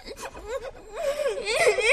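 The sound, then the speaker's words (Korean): A person crying, a wavering, whimpering wail with uneven breaths that swells louder toward the end. “울긴 왜 울어?”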